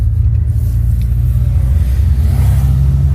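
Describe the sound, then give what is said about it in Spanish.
A car drives in traffic, its engine giving a steady low rumble that stays loud and even throughout, with no voices. “Solo me incorporo en el tráfico porque hay muchas motos como que se dieron a la tarea hoy de no querer dar el paso. Bueno, ya estamos en marcha.”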